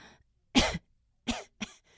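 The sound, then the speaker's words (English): Quick, dry coughs from someone whose lungs are not breathing well. Three short, harsh bursts come in close succession with no talking; the first is the loudest. “I started developing this quick dry cough with every breath.”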